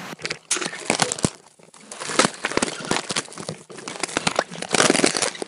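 Crinkly plastic rustling as a package of macaroni snacks is torn open, with a steady stream of crackling and crunching bursts that swell and dip but never quite stop.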